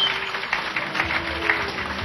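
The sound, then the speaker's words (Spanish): A church audience claps strongly, a continuous, moderately loud crackle of many hands that keeps an even level throughout. “Y damos fuertes palmas al que vive en el nombre de Cristo Jesús.”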